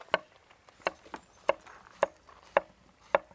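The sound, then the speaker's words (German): A knife slicing zucchini into rounds on a cutting board: several sharp, quiet chops at a slow, slightly uneven pace, with faint scraping between them. “Jetzt schneide ich die Zucchini.”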